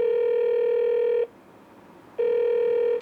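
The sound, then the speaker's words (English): A telephone line tone heard over a speakerphone: one long, steady buzzing tone, a pause of about a second, then the same tone starting again, loud and alone. “Now I gotta call Livvac. Put it on speaker.”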